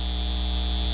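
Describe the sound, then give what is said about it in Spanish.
A data center hums with a constant electrical drone: layered steady tones and a high whine hold unchanged at a moderate level. “Este es el sonido de un centro de datos llevándose el agua de nuestra comunidad y aumentando nuestras facturas de servicios públicos.”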